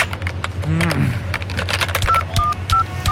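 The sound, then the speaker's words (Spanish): Dialing a phone number with a phone card, producing a few short touch-tone beeps mixed with sharp key clicks at an uneven pace. “Bueno, ahora marcarle a mi mamá con la tarjeta.”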